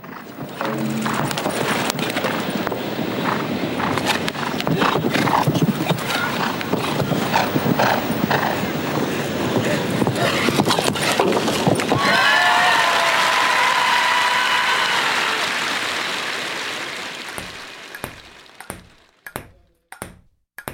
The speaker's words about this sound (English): I leave you with one of my favorite sounds, the equestrian jumping event.